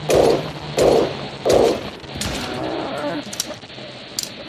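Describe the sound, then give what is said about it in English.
Gunfire in a video game: three heavy, booming shots land in an even rhythm early on, then give way to quieter background noise and a few faint clicks. “Running out of bullets. Only have like 5 shots left.”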